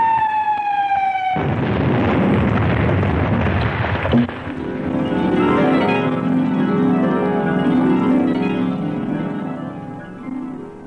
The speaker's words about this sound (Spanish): De pronto, una bomba cayó más cerca.